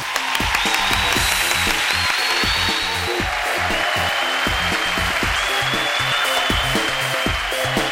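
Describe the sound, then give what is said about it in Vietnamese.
Applause at a birthday celebration: a steady, moderately loud wash of many hands clapping that continues evenly throughout. “Chúc mừng sinh nhật bạn Hiền, tất cả chúng ta cho một tràng pháo tay nào.”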